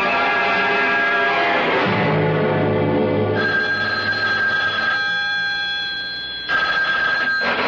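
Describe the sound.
A telephone bell rings in an old radio drama, a steady, continuous metallic trill whose tone shifts partway through before carrying on to the end.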